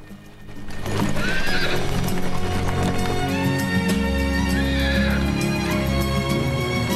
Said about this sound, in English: The horses pull the coach through a field surrounded by green rolling hills.